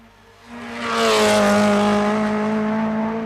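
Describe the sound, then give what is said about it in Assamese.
A car drives off fast on an empty road: its engine rises quickly from quiet to a loud, steady droning roar with a strong humming tone that holds to the end. “যা যা উৰাই লৈ যা তোৰ গাড়ী।”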